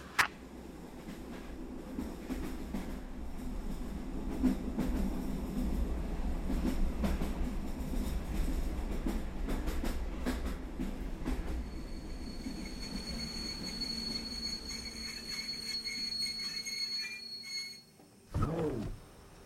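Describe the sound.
Train interior rumble and rattle, a steady low roar with many irregular clicks and knocks of wheels and carriage. A thin, high wheel squeal joins later, and the noise drops briefly near the end before a sharp jolt.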